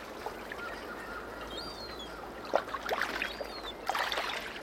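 Kayak paddles dip and splash on the water, a few soft strokes over a quiet, hissing background, with faint high bird chirps above.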